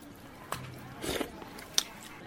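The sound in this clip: Someone chews and bites into a chicken meal, giving a few soft, brief crunching and munching sounds that stay faint throughout.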